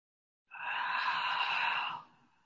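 A single deep inhale taken during meditation: a smooth, airy breath drawn in for about a second and a half, fairly loud and alone in silence, then trailing off softly.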